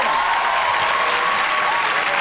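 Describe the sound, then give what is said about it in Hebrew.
Loud, even audience applause at a stand-up comedy show, as the crowd claps for a young woman from the audience; the clapping is thick and continuous from start to finish with no one speaking. “איפה כפיים לשיר?”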